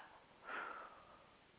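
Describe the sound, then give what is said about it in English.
A single deep breath drawn in through the nose during a guided breathing exercise, a soft airy inhale that swells briefly and fades, faint and alone without talk. “Okay, so everybody take a nice breath in.”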